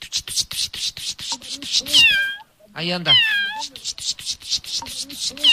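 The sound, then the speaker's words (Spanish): A lost kitten meowing: a few high, plaintive mews in the middle, the second sliding upward, heard over a fast, steady pulsing rhythm that runs through the whole clip. “Chiquillo, se perdió un gatito.”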